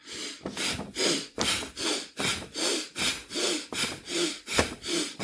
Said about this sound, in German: Also Arme hochnehmen, einatmen, Arme runternehmen, ausatmen.